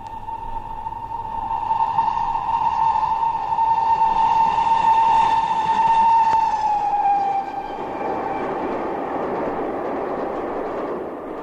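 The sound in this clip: A train travelling, heard from inside the rear carriage: a long, steady horn-like tone sounds for several seconds and dips slightly as it ends, over a constant rolling rumble that carries on alone afterward.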